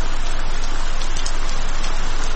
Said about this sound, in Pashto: باران تیز شو، داسې شرشوری شو لکه ناوې چې له اسمان راخوشې شي.